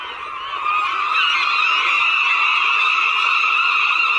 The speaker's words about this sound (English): What do you think the seagulls are saying when they say this very cacophonous sound.